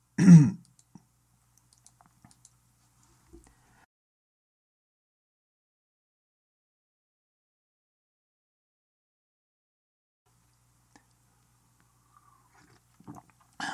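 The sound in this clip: A single short throat clearing at the start, followed by long near silence with faint clicks, then another brief soft sound at the end.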